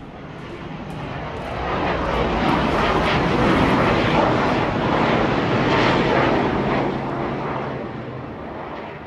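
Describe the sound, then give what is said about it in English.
A Boeing F-18 Hornet military jet, likely a Super Hornet, flies low over a residential neighborhood north of Wilmington. Its broad roar swells after a moment, holds loud and steady through the middle, then eases slightly toward the end. “That is a Boeing F-18 Hornet, likely a new model Super Hornet, flying over the Murrayville neighborhood north of Wilmington.”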